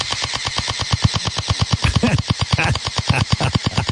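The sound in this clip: Rapid, evenly spaced shots from a kid's pellet gun fired in a neighbor's yard, a long run of sharp, loud pops repeating at a steady machine-like rhythm throughout.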